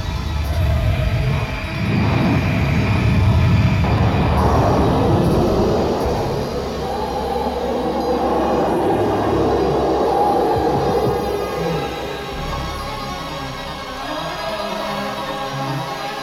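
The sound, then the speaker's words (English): A projectile rushing past on rails: a loud, broad roar swells over the first few seconds, then settles into a lower, sustained rumble and hum that eases slightly toward the end. “Now we stand by the rails and receive a hair-raising impression of how this projectile sounds as it passes by.”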